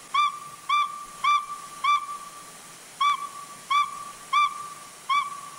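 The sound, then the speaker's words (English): An owl call is played from a phone: a series of short, clear, whistled hoots on one steady pitch, evenly spaced, with a slightly longer gap about midway. “Here's the owl sound. I've got it on my phone here, so I'm just going to bring it up to the microphone.”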